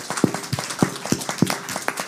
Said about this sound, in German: Applaus ans Podium, bitte, einmal.